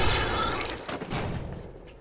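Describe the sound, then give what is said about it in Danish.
Rifle shots from a sniper on the floor above, firing at zombies: dense, continuous bursts of loud gunfire and booming impacts that fill the whole clip with little pause. “Merle Dixon, som står og, og, og sniper zombier. Ja, det er rigtigt. Fra etagen ovenover.”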